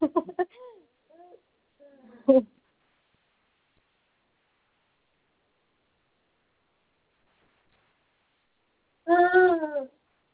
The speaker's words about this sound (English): I'm just trying to feed my 1-year-old because he's babbling in the background.